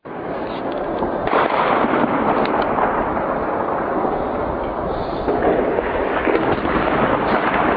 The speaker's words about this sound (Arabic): قصف عنيف على حي بابا حي الإنشاءات.